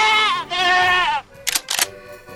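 Two quavering goat bleats, a short one followed by a longer, wavering one, then a pause and two brief, sharp clicking bursts.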